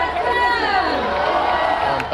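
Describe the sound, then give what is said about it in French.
Cycling fans in Barcelona chanting together for Tadej Pogacar, a dense mass of voices holding a loud, continuous sung tone that wavers in pitch throughout. “les fans de Tadej Pogacar avaient toujours de la voix hier à Barcelone. Depuis son arrivée en Espagne, le Slovène fait chanter le public.”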